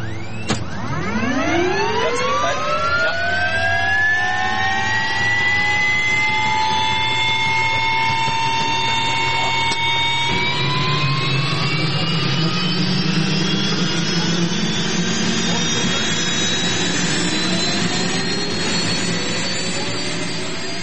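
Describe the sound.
A jet aircraft engine spools up before takeoff, its whine climbing in pitch early on, then holding as a loud, steady roar over a low rumble for about twenty seconds, with a further slight rise midway.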